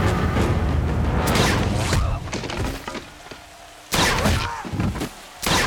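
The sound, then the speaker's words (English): Gunshot from a weapon fired from a watchtower at night, sharp, loud cracking bursts standing out over a dense, noisy bed, with a sudden hard burst near the end after a quieter lull. “On the watchtower, Schoolboy has a soldier in the sights of his weapon. His watch shows 2 a.m. He fires.”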